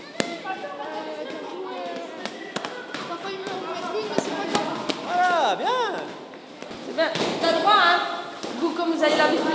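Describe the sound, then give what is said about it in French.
Boxing punches in a women's training class, thrown in three-hit combinations of weak, strong, weak: many sharp thuds and smacks in irregular bursts under a coach's talking. “Les filles, on donne trois coups. Faible, fort, faible. Quand ça va bien, on fait vite.”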